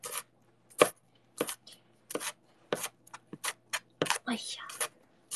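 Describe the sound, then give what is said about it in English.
A knife chops food before it goes into oil, making many sharp, irregular cuts, some spaced apart and some clustered. Faint voice sounds come through near the end. “Chop these up.”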